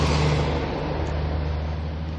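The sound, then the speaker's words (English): A garbage truck's engine gives a steady, loud, low rumble with a droning hum that stays fairly even throughout. “Garbage truck. I wonder if they'd pick up my trash.”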